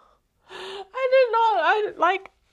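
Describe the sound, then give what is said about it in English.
A person who is emotional and teary sniffs once with a short, breathy burst, then makes a few shaky, voiced gasps and whimpers. “sorry guys, I'm not on the podcast, but you're gonna hear all my sniffing, but that's just really how I've been feeling and externally showing my feelings.”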